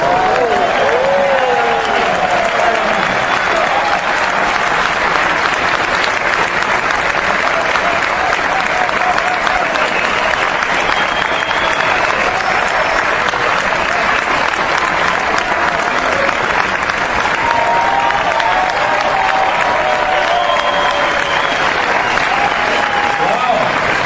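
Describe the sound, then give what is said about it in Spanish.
Sustained audience applause at an entrepreneurship talk: dense, steady clapping that runs loudly through the whole stretch, with some voices faintly mixed in. “Un aplauso para Consuelo Hernández”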